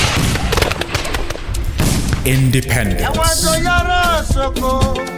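A volley of gunfire in a radio drama battle scene, a loud, dense burst of many sharp cracks over the first two seconds, then giving way to music with sustained tones.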